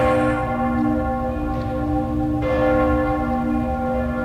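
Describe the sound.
Church bells of Cologne Cathedral ring in a deep, sustained peal, the overlapping tones humming on with a fresh strike midway through.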